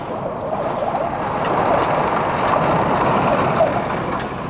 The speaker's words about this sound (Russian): Машины чекистов едут по горной дороге.